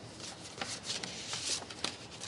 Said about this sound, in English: Let's open our Christmas to-do list challenge envelopes for week 4.